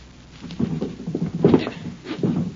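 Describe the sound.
Rattling jerks of a stuck bureau drawer being tugged, a few scraping, knocking bursts spaced unevenly with no voices.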